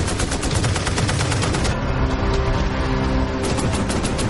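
Gunfire from a World War II D-Day battle in Normandy, in a war documentary trailer: loud, rapid machine-gun bursts rattle steadily, ease into a rumbling lull, then resume in fast repeated shots.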